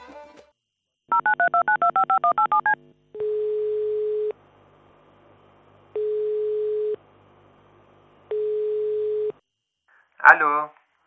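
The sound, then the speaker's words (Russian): A mobile number is dialed on a telephone: a quick run of beeping keypad tones, then three long, evenly spaced steady ringing tones, with a brief voice at the end. “Он звонит на мобильной матери, и так начинается их телефонный разговор.”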